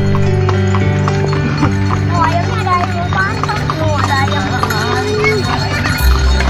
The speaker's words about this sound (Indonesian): Delman adalah kendaraan transportasi tradisional roda 2, 3, atau 4 yang tidak menggunakan mesin tetapi menggunakan kuda sebagai penggantinya.